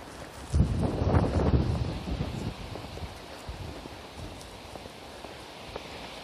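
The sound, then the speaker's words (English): Wind from the north blowing into the face and across the microphone. A low, gusty rumble buffets hardest in the first two seconds, then eases into a softer, steady rush with no voices. “A little bit of wind in my face. Mostly it's coming across out of the north.”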